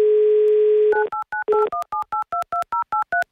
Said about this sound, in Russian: Набрали номер Алексея из Санкт-Петербурга, 2083.